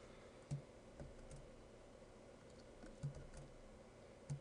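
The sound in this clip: Control C pressed on a computer keyboard to stop a running process: faint, isolated key clicks, with three clear presses spaced well apart over a few seconds of near-silence.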